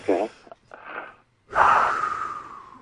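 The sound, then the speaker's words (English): A person draws a big deep breath of fresh Kalahari air in the Northern Cape: a few short, snort-like breathy puffs, a brief pause, then one long, loud, wheezy inhale that trails off slowly. “Take a big deep breath right now.”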